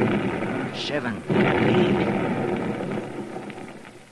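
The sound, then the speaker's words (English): Blasting charges explode in a mine shaft, set off with fuses to bring down rock. A deep boom hits partway through, then a heavy rumble rolls on and slowly fades. “Ah, that was a darn good round. Brung down a lot of rock. There's 10. I reckon I'll stick to this brand of fuse from now on.”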